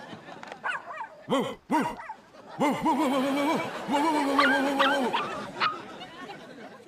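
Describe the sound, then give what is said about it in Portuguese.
A large dog's barking plays over loudspeakers: a few sharp barks, then longer, drawn-out yelping and whimpering tones at moderate loudness. “Parecia um cão enorme, não parecia?”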